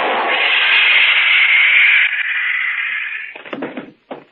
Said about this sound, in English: That stun gun blast ought to keep him on ice for a couple of hours. Long enough to get him down to headquarters, anyway.